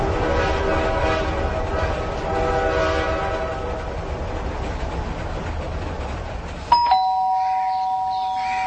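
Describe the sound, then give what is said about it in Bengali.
A train engine runs through the night, its steady rumble carrying a droning tonal hum. Near the end, a sudden sharp, bright whistle tone cuts in and holds. “অন্ধকারের বুক চিড়ে রাতে ট্রেনের engine তার বৈদ্যুতিক বাতি জ্বেলে গন্তব্যের দিকে ছুটছে হু হু করে, সঙ্গে সে জাদুরবাসীর হুইসেল কানে আসছে।”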